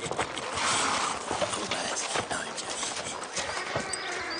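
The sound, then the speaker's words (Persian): A horse's hooves clip-clop in an uneven series of hollow knocks over a low, busy background, with no voices. “این اسب رحمانه به سهل نیست؟ نه، نیست. چرا هست؟ یقین دارم. نه، این اسب بهاولد سلطان العلماست.”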